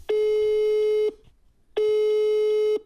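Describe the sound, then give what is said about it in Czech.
Telephone call tone while phoning someone: two long, steady, buzzy beeps of about one second each at a single pitch, separated by a short silence, loud and alone. “Takže jí volám.”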